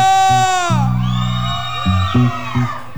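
A whooping shouted cheer rises at a festive gathering of friends and family: a loud, drawn-out yell slides downward in pitch over steady, stepped low tones, with further shouts breaking in near the end.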